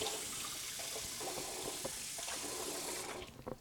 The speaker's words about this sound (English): So wash your hands again.